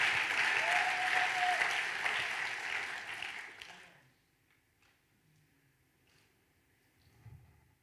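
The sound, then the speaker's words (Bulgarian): A church audience applauds with dense, steady clapping that gradually thins and stops after about four seconds. Near silence follows, broken only by a few faint ticks. “ако ръкопляскаш, ръкопляски”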